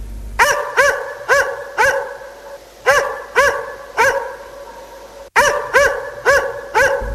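A dog barking loudly and alone: many sharp, ringing barks in quick runs of three or four, separated by short pauses, each bark bright and strongly pitched.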